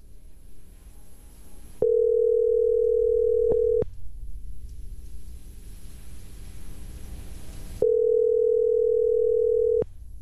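Ringback tone on an outgoing call to a cellphone that is later forwarded to voicemail: two loud, steady buzzing tones about two seconds each, separated by roughly four seconds of hissy line noise.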